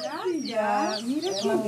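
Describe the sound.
Chickens cluck at a chicken coop beside a village garden, a run of loud, clipped, warbling calls that overlap and continue without pause through the whole stretch.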